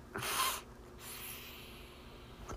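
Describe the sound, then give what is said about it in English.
Two soft, breathy sniffles from someone with allergies, close together at the start, followed by quiet and a faint click. “as you guys can tell, I do have allergies. Still curious to know how they are going to perceive me later at work when I'm sniffling.”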